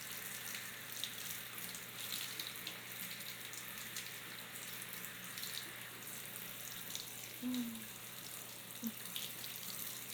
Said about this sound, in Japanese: このままもう一度体も流しちゃいますね。